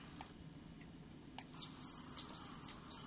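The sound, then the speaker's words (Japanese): A brown-eared bulbul calls with a few faint, high, sharp chirps followed by drawn-out whistled notes over a low background rumble. “これピーピーってヒヨドリのヒヨちゃんらしいです”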